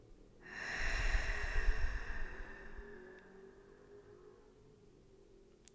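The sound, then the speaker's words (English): A big, deep breath drawn in: one long, loud, airy rush of inhaled air lasting a couple of seconds, alone, then trailing off into a quieter, fading hiss. “Big deep breath in.”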